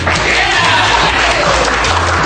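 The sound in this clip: A studio audience at a talk show applauds with dense, loud, continuous clapping that holds steady for the whole clip, with no distinct voices.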